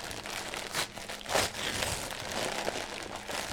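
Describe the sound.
Wrapping paper being ripped off a wrapped Christmas present: a steady crinkling rustle with a few sharper tearing bursts rising out of it.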